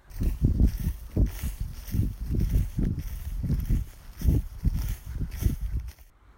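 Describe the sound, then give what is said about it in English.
Footsteps swish through grass in a field in a steady walking rhythm of soft, brushing steps that continue throughout, with no voices. “It was lovely to walk through those fields with the sound of the swishing grass underneath my feet”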